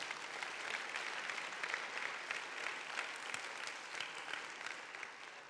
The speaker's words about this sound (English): Let's give the dads a hand.